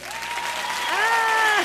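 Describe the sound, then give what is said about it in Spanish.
Studio audience applause: a soft patter of clapping sits under a clear speaking voice for under two seconds. “¡Aplausos!”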